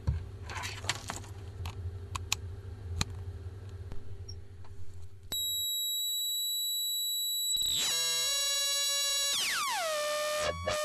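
A homemade synthesizer built on a circuit board with capacitors and resistors crackles with scattered clicks, then settles into steady high electronic tones that give way to layered buzzing tones sliding downward in pitch.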